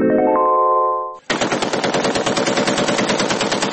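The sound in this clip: Rapid automatic gunfire from a gun: a sustained tonal sound cuts off, then a dense, continuous stream of loud cracks follows without letup.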